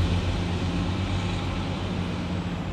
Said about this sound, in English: I'll let the truck go by